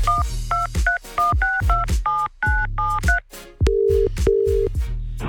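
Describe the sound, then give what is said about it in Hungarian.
A phone number is dialed on a keypad for a radio call-in: a rapid run of about ten short, bright dual-pitched beeps, then two longer, steadier, lower tones as the line connects, all over a loud music bed. “Tárcsázom is, lássuk ki ő.”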